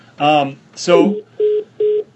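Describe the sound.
A call tone sounds as a participant drops off a call: two short, identical mid-pitched electronic beeps, evenly spaced and clean, following a couple of brief spoken sounds.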